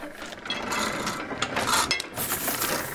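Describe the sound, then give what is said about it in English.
A foot-powered platen letterpress, about 100 years old, 360 kilograms and without a motor, prints designs onto paper, giving a steady rasping, rubbing mechanical noise with a few sharper scraping accents throughout. “The company uses a 360-kilogram Platen letterpress machine to make its creative designs.”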